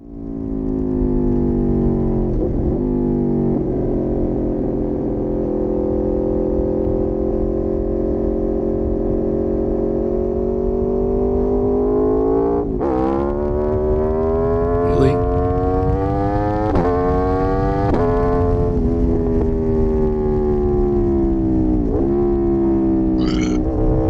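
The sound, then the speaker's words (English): An Aprilia RSV4 motorcycle engine holds a steady droning tone, then is revved several times in the second half, each throttle blip sharply raising the pitch before it settles back. “one of my favorite sounding bikes, although I'm not sure I could actually own one, but I've always liked the Aprilia RSV4.”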